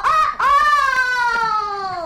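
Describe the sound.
A young rooster crowing a victory call: a brief broken note, then a drawn-out, rich harmonic crow that holds and slowly sinks in pitch, loud and alone.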